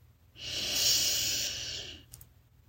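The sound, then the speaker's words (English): A single slow, breathy inhale during a guided night-time meditation, rising gently from quiet, holding as a soft airy hiss for over a second, then fading out, followed by a faint click. “Very nice do that one more time to relax into slumberland. Breathe in heart.”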